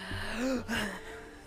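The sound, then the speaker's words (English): A person takes a deep, audible breath: a short gasping intake and release lasting about a second, heard alone. “I gotta take a deep breath for this one. I gotta take a deep breath”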